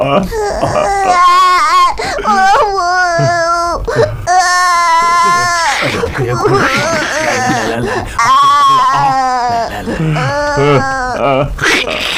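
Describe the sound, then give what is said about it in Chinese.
An old man cries in loud, wailing sobs: several drawn-out, quavering voiced bursts that rise and fall, broken by short gasping pauses and ragged breaths. “老施主，你别哭了，你有什么事尽管说嘛，哭什么呀？”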